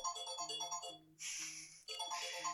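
A phone ringtone signals an incoming call: a faint electronic melody of repeated bright tones over low pulsing notes, broken by short pauses between phrases.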